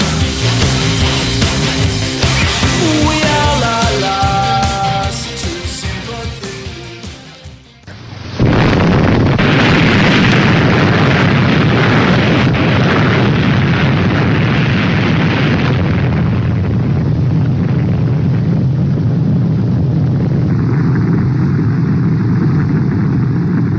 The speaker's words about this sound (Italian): questo è il suono, l'originale suono dell'esplosione della prima bomba nucleare esplosa su Hiroshima il 6 agosto